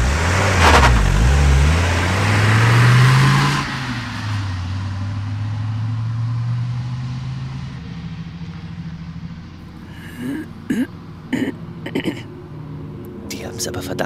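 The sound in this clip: A car pulling away, its engine loud and revving upward at first, then settling into a lower rumble that gradually fades, with a few faint knocks near the end.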